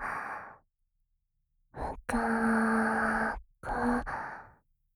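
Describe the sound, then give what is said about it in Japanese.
Deep breathing from a person calming down: a few breaths, including one long, voiced, sighing exhale, separated by short silences. “だったら深呼吸して落ち着こうか。行くよ。”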